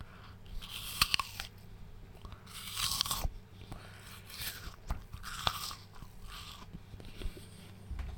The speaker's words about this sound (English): Can you hear the sound of me chewing?